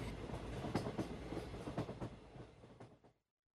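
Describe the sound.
Rumble and clickety-clack of a passenger train travelling to Jaipur roll along steadily with repeated rail clatter, then cut off abruptly after about three seconds.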